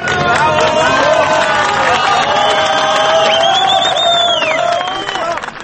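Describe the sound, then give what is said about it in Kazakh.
A crowd cheers and shouts as the first miner is brought up in a rescue capsule from a 622-metre-deep mine. The cheering is loud and continuous, with many voices yelling over each other. “Олардың алғашқы кенші құтқарылған кезде сол жерде жиналған жұрт қатты қуанып қарсы алды.”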